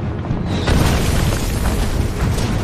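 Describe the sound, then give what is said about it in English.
Mortar rounds exploding as German fire lands on an American position by a wooded tree line, with a heavy burst early on and then a loud, continuous, dense rumble of blasts throughout. “The Germans redirect the mortar rounds to the new American position.”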